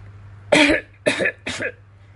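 A man coughing hard: three harsh, raspy bursts in quick succession, the first the strongest, with no talk around them.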